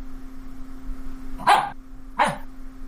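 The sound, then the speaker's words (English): A pet dog barks twice, two short sharp barks about a second apart, heard over a faint steady electrical hum. “One of the werewolves is here now. Got this goddamn pet dog.”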